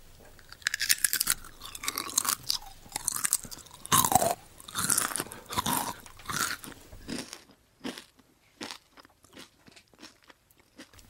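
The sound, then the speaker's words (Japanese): Crisp crunching and chewing of red potato chips, with many dense bites and crackles at first that thin into sparser, quieter chews toward the end. No one speaks. “では赤いポテトチップスいただきます。”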